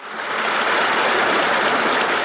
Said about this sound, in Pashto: دا د خوست ولایت د تڼۍ ولسوالۍ اړوند د نریزي له غرونو بهیدونکو دایمي اوبو دي